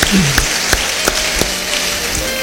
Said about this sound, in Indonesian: Beri tepuk tangan yang baik bagi dia.